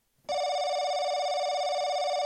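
A telephone rings with an incoming call on an opened phone line: one buzzy, harmonic-rich tone that starts abruptly and holds steady and loud to the end.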